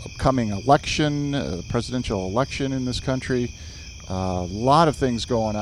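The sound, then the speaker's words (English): Crickets chirp outdoors on a summer evening in a steady, high-pitched, pulsing trill that runs throughout, faint beneath a man talking. “But here on Outlaw Ridge, you can hear the crickets are singing their beautiful summer songs for us.”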